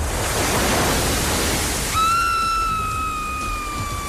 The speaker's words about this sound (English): here comes the tide. Oh no, oh no, oh no, what are we going to do? The tide is coming in.